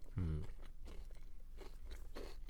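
Crunchy biting into a large, very crispy fried bread: one loud crunch near the start, then fainter chewing crackles that continue through the rest.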